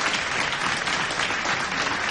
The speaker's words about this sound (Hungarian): A közönség tapsolt.